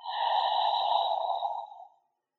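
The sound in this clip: A single slow, steady breath is heard alone during a guided breathing exercise, soft and airy, before it fades out.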